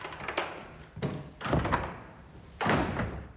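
Doors shutting indoors as two people each close their room door: a few dull, muffled thunks spaced out over a few seconds, each with a short tail, alone without voices.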